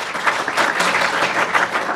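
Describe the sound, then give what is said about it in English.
Audience applause welcoming panelists at a real estate event: dense, steady clapping from many hands, loud and sustained without a break. “So with that, please help me welcome our panelists, and then I'm going to turn it over to John.”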